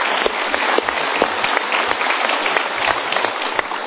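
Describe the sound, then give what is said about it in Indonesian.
Audience applause at a motivational seminar after poll results are announced. Thick, continuous clapping carries at a fairly loud, even level, with a few sharper individual claps standing out; the sound is slightly muffled and thin. “Kita berikan tepuk tangan.”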